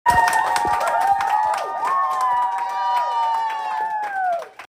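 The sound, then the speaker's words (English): A live studio audience cheers and shouts with scattered claps, a loud, sustained wash of voices lasting nearly five seconds before dropping away at the end. “That Moment When was filmed in front of a live studio audience.”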